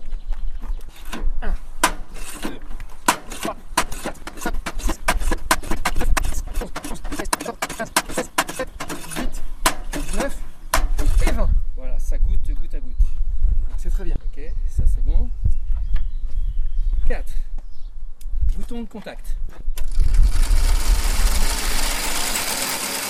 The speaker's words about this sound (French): Pomper 20 fois et bien verrouiller